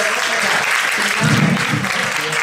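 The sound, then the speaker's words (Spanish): Audience applause as guests are introduced at a live show, a dense, steady wash of clapping that stays loud throughout. “Un aplauso.”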